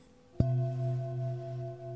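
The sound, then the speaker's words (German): A larger singing bowl, a pelvic bowl used in a sound massage on a therapy couch, is struck once. A deep, sustained, resonant hum with several clear overtones rings out steadily, alone and without talk. “So, jetzt kommt meine andere Schüssel, die Beckenschüssel. Die hört sich so an.”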